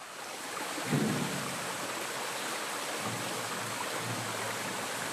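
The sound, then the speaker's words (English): Potts Creek, a Jackson River tributary in Paint Bank, Craig County, Virginia, flows with a steady, even rush of water that holds a constant broad hiss throughout, with no voices. “That's the sound of Potts Creek, a Jackson River tributary, recorded in the Craig County, Virginia community of Paint Bank on Labor Day 2017.”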